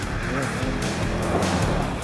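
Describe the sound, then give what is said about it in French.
A Peugeot 206 Super Coupe Group A rally car with a tuned 1.6-litre, 150-horsepower engine and rally suspension spins out, giving a steady, loud roar of engine and tire noise that continues without a break. “Eh oui, premier tête à queue.”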